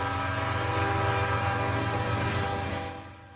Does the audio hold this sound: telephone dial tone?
no